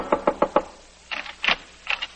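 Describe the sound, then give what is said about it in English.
Frantic knocking on an apartment door in a radio drama: four quick, even raps, a short pause, then three heavier, more urgent knocks. “We find Anne frantically knocking on Jeff's door.”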